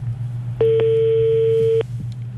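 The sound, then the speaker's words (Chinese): A telephone call connects and then drops: one steady electronic line tone holds for about a second over a low hum, then cuts off abruptly. “好，这个电话看来是拨通了之后又掉线了”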